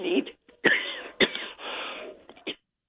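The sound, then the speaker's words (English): A person clearing their throat: several rough, harsh bursts, some cough-like, spread over about two and a half seconds with no speech. “Go ahead and clear your throat there”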